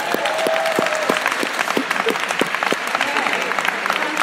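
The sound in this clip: Audience applause fills the whole clip, a dense, steady clatter of many hands clapping at fairly even loudness with a few sharper claps standing out.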